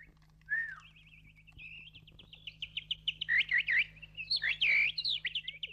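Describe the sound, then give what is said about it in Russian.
Birds chirp in a small wood by the sea shore while a man whistles back, imitating them: shrill, high chirps and whistled tones trade back and forth, growing busier toward the end over a faint low hum. “Он пересвистывается с птицами.”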